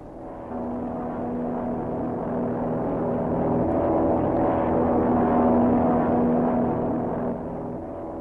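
Propeller bombers flying over, a steady, low droning engine hum with a sustained tone that swells slightly and holds throughout, without voices.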